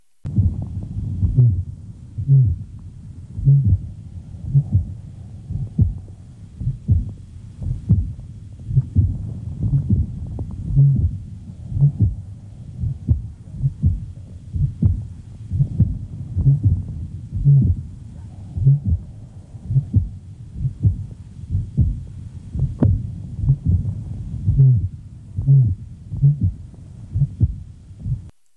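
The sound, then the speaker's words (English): A heart murmur heard at the lower left sternal border runs through a long series of regular, low-pitched heartbeats, each thud carrying a soft whooshing component, steady in rhythm throughout. “The rapid collapse of the jugular veins is easily visible in the neck while auscultating the murmur at the lower left sternal border.”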